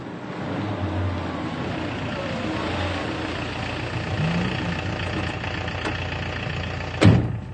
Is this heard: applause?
no